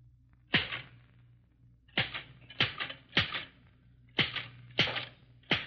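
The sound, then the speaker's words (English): Typewriter keys struck with a pencil held between a mother's teeth, typing about eight words a minute. Seven sharp, separate clacks come alone at slow, uneven intervals. “8 words a minute, typed by a mother of 2 children by holding a pencil between her teeth.”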